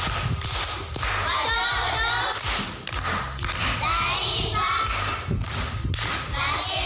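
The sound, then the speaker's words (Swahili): Applause at a primary school quiz after a woman answers a question correctly: dense, irregular clapping with thuds runs continuously, fairly faint. “Makofi kwa shangazi.”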